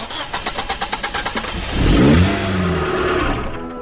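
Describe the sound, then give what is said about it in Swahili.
A car's starter cranks in a quick run of rhythmic pulses before the freshly serviced engine catches, revs up loudly, then settles into a steady running hum. “Haya, washa engine.”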